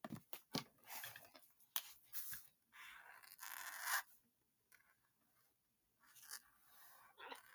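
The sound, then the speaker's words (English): Quick pen or pencil strokes scratch across paper during a ten-second speed drawing of a cartoon character, coming in faint, irregular bursts of rapid scraping with short pauses between them. “We are going to... draw Squidward in 10 seconds flat.”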